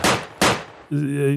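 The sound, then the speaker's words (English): Two sharp gunshots from a Texan firing off his guns, each a loud crack with a quickly fading tail, followed by a sustained whooping voice. “What's that sound? It's the sound of the contextual Texan firing off his guns.”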